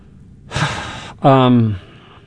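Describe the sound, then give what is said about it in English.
A person takes a deep breath, with a rushing, breathy inhale followed by a short voiced, sigh-like exhale. The breath stands alone at moderate loudness. “I just took a deep breath”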